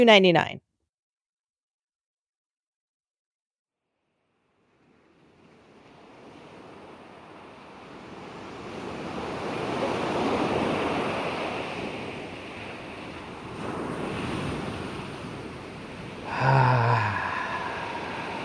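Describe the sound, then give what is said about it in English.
Water waves wash in on a summer day, broad rushing surges that swell and ebb a few times, following a brief sharp sound at the start and several seconds of near silence. “I love the sound of the water on a beautiful summer day. It's so relaxing.”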